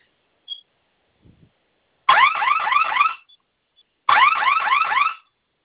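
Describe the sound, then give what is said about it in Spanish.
A home alarm system sounds as it is being set with a passcode, giving two loud bursts of rapidly warbling electronic tone about a second each. Faint short chirps come before them. “En cuanto suene la alarma, va a ingresar usted su clave que escogió, ¿sí?”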